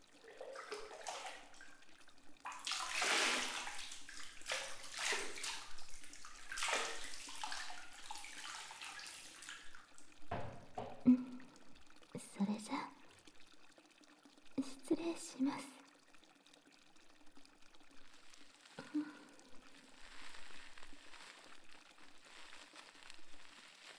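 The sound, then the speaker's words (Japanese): Hot water is poured over someone sitting in a bath. The quiet sloshing and splashing includes a longer pour early on, then several shorter, scattered splashes, with faint breathy voice sounds in places. “お湯かけるわよ。”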